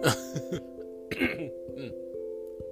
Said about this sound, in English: That's just clearing my throat.